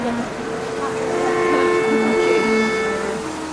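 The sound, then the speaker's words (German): A noisy street sweeper drives through the centre of Esch-sur-Alzette, giving off a steady mechanical drone with humming tonal whines that holds fairly level throughout. “Eine lärmende Straßenkehrmaschine fährt unaufhörlich durch das Zentrum von Esch-sur-Alzette.”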